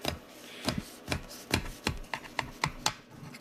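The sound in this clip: A knife cuts lengthwise through a tray of baklava, right to the bottom, giving many crisp, crackling crunches in an irregular rhythm, with sharp bursts standing out against a quiet background and no talk.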